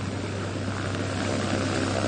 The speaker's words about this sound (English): The pilot carrying this group of river watchers finally lands the plane midway along the Illinois River at a small airport in Peoria.